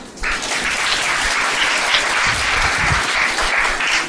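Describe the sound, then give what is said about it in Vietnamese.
An audience applauds during a Buddhist teaching talk, bursting in after a short quiet opening into dense, loud clapping that stays steady to the end. “Nghe cái đó ai cũng vỗ tay hết”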